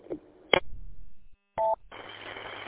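Telephone dialing tones as a connection is dialed up: a few clicks and a short, bright touch-tone beep, followed by a steady noisy hiss on the line.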